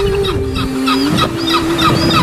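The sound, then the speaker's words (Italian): Gull-like bird calls from a film soundtrack, a string of short honking cries repeating over a steady, low sustained tone that runs through the whole passage. “I gabbiani, immaginali in mezzo agli alberi, nella penombra.”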